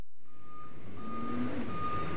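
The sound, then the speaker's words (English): A dump truck's reversing beeper sounds as it backs up to a big bay door of a tall metal building at a trash dump. A steady, high beeping tone runs over a low engine rumble, with no voices. “At the front of a tall metal building, a dump truck backs up to a big bay door.”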